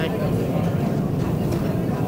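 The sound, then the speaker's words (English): Steady low rumble inside a moving train, a dense, even roar that holds without a break for the whole stretch. “So it's for them you're on this train.”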